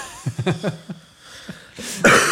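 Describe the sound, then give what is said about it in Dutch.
Dry coughing from a person who is slightly ill: a quick cluster of several short bursts, then a brief pause and a harsher, noisier cough or throat-clearing at the end. “dat je steeds een beetje aan het hoesten bent”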